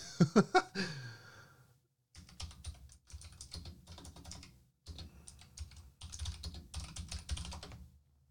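Rapid typing on a computer keyboard comes in several bursts of quick clicks separated by short pauses, fairly faint and with no talk.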